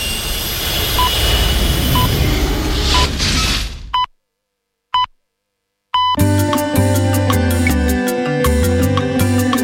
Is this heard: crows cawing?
no